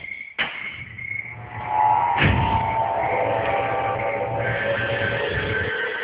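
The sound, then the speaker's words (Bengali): A door is slammed shut in haste, with two sharp bangs, a short one and then a heavier one about two seconds later, set against a steady sustained tonal background. “দরজাটা বন্ধ করে দাও এক্ষুনি, তাড়াতাড়ি তাড়াতাড়ি দরজা বন্ধ করো।”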